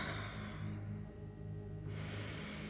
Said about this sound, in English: So I gently close my eyes and take a deep breath, breathing in and out slowly,